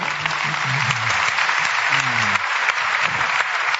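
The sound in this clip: An audience applauds a guest onto a stage, with dense, steady clapping throughout and voices faintly underneath.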